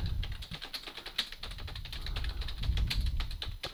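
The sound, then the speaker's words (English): Rapid typing on a computer keyboard whose keys may be knocked out of whack by heavy fingers: a dense, uneven stream of many sharp clicks and taps, steady throughout with no voices. “Guess that keyboard's working a little better, huh?”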